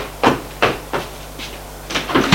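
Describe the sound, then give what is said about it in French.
A house door being opened, with a few dull knocks and clacks spaced unevenly, ending in a cluster of quicker clicks over a soft background hiss. “Puis, elle va ouvrir la porte de la maison.”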